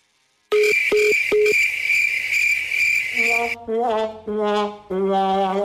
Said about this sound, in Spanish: Vamos a marcar una vez más de volada. Que no quede nosotros. ¿Sale, vale? Anónime, le estamos marcando, ¿eh?